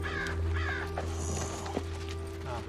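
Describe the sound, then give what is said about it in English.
A crow caws a few times, with harsh, scratchy calls rising over a steady low hum that continues throughout. “There it is. A crow is standing on top of a rock.”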